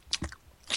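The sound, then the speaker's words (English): Gum chewed with the mouth open: a couple of quick, wet smacking and crunching chews, brief and fairly faint. “people who gum chew with their mouth open.”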